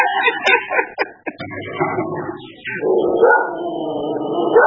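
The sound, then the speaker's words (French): Family guard dog barking: sharp, high yips and barks in quick succession give way to a longer, drawn-out whining vocalization. “C'est le chien de la famille. Oui, le chien de la famille. Donc, le chien gardien de la personne.”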